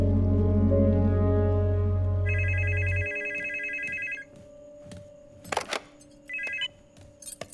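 A telephone rings during a call, a warbling electronic ring lasting about two seconds and then a shorter burst near the end, heard over a steady low drone and a few brief clattering noises.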